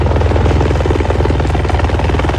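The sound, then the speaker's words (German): Two police helicopters ferrying firefighting water from the Mondsee, their rotors giving off a loud, steady, rhythmic thumping with a constant engine whine. The drone is continuous and unbroken, with no voices. “Es sind auch zwei Hubschrauber der Polizei vor Ort, die uns vom Mondsee ein Löschwasser bringen.”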